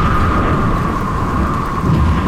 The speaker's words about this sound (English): storms, which can change very quickly and unexpectedly, and a light rain can transform without warning into a howling gale.